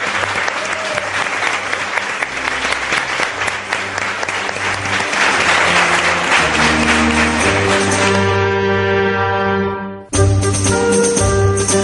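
Audience applause marking a 3000th program: dense, loud clapping that runs steadily for several seconds, then gives way to sustained musical tones that cut off briefly before a short musical sting.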